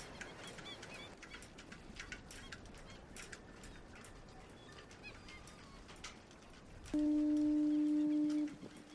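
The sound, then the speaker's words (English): A foghorn near Church Bay and Myrtleville gives one long, loud, steady blast with a low tone and strong harmonics, lasting about a second and a half, after several seconds of scattered bird calls over background noise. “I mean, my own father loved the foghorn.”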